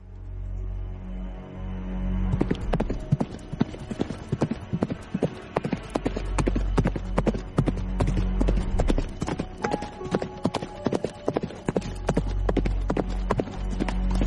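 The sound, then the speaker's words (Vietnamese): Hooves clip-clopping as horses are ridden off: many crisp, steady hoofbeats with a dull rumble underneath, carrying on throughout after a quiet opening. “Dương Khai, Dư Nhất, Thích Huyền Minh thúc ngựa theo sát đằng sau.”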